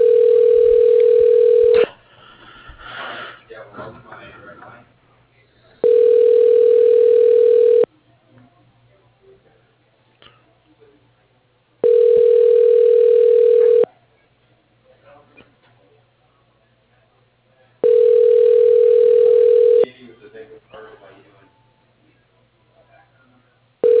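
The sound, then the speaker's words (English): A telephone ringback tone while a call is transferred: four long, steady two-second tones separated by quiet gaps, with a fifth just starting at the end and faint low noise between rings. “Please hold while your call is transferred.”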